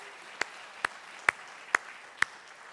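Five evenly spaced, faint hand claps from a church audience welcoming someone ring out in a slow, regular rhythm over a quiet background.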